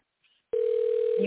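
Telephone dial tone as a call is placed: after a brief quiet moment a loud, steady tone starts abruptly and holds, with a second lower tone joining it near the end.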